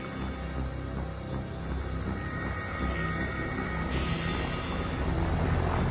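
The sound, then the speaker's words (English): A helicopter flying overhead produces a loud, steady rumbling roar that fills the whole clip and grows slightly louder toward the end, with no voices. “That's not a plane, that's a helicopter.”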